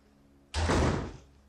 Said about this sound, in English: I said go and lock that gate. Now!